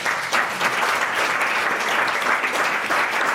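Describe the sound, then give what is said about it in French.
Audience applause rewards contestants' definitions in a game segment: a steady, dense patter of many hands clapping that stays even in loudness throughout, with no speech over it. “On peut applaudir toutes ces belles définitions.”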